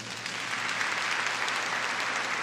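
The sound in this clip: A church audience applauds together in a dense, steady burst of clapping that holds at an even level throughout, with no voices over it.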